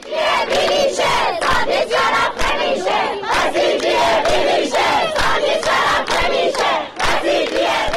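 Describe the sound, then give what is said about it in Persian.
Students chant in unison at a protest rally at Razi University in Kermanshah. The crowd is loud and rhythmic, repeating a phrase steadily from start to finish. “صدای دانشجویان دانشگاه رازی کرمانشاه.”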